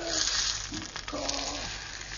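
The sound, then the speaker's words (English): Butter browns in a pan, giving a steady bubbling sizzle with soft crackles that continues evenly throughout. “And then now I'm going to brown some butter.”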